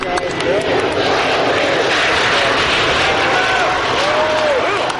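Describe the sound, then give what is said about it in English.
A loud, steady roar of aircraft engines at the privately funded SpaceShipOne spaceplane launch. The broad rushing noise holds level throughout, and a few faint whistling tones run above it. “You might say that the private space race had its own Sputnik moment nearly 50 years later with this launch.”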